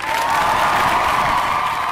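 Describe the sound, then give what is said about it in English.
Clapping from a group during a children's name-reading exercise, a dense, continuous patter held at an even level for about two seconds. “Let me clap for you.”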